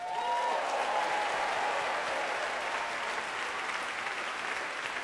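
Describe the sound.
Applause from a concert audience for the BBC Proms Family Orchestra: continuous, evenly dense clapping at a fairly soft level, holding steady from start to finish.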